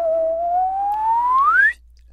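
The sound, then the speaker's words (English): A slide whistle plays a single smooth tone that glides steadily upward in pitch, rising faster near the end before cutting off abruptly, with nothing else heard. “Slide whistle.”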